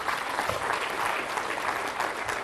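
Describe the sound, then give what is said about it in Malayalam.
A church audience claps during worship, a dense, steady patter of many hands that keeps an even loudness throughout, with no voices. “ഒന്ന് കൈയടിച്ച് കർത്താവിനെ മാത്രം പ്രാർത്ഥിക്കുക.”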